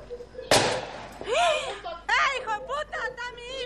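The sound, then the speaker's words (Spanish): A gunshot rings out in a played video: one sharp, loud burst early on, followed by raised, agitated voices shouting. “Eso es el segundo tiro, señor, que tira.”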